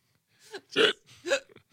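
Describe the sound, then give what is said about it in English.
A person's hiccups, a few sharp, short, voiced gulps separated by brief silences. The later ones are louder and fuller than the first. “Now I have the hiccups.”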